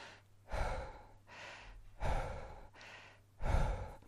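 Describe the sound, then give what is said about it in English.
A voice imitates continuous rapid breathing without pauses, as in breathwork practice: fairly faint, rhythmic breaths with loud, rushing exhales alternating with softer inhales, about three strong breaths in four seconds. “So what you're doing is you're breathing without stopping. So you're going like,”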